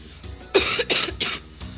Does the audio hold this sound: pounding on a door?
no